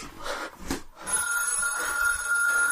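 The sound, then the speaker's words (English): A telephone rings with a steady, bright electronic tone that starts about a second in and holds without a break, with no voices over it. “What's going on with my phone?”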